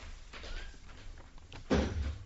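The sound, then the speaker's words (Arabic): A door is pulled shut with a single dull, low thud after a stretch of faint shuffling. “اقفل الباب وراك يا معتوق.”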